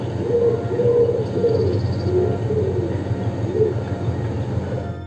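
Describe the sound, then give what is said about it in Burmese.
Doves perched on overhead wires along a street coo in soft, low, repeated calls over a steady low background rumble. “မိကိုရောင်ခုံငှက်တွေဟာလမ်းပေါ်ကဓကြိုးပေါ်မှာနားနေကြပြီးတကူကူနဲ့မကြခဏအော်နေကြပါတယ်။”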